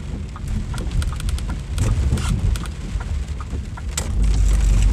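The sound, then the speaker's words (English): Steady low rumble of a vehicle driving over a brick road, with rough, grainy clatter throughout that swells louder toward the end; no one talks. “This is a brick road. That's all that noise is.”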